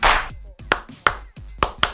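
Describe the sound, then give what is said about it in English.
Hands clapping in several sharp, separate claps at an uneven pace, with short pauses between some of them. “Jason Garrett is just applauding Robert Quinn right now. Applauding his agent. Applauding his agent's statement about PEDs. Just can't stop clapping.”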